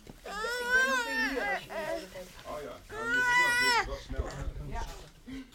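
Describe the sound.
A baby cries during a presentation in two long, loud wailing bursts, with softer whimpers and fussing between them.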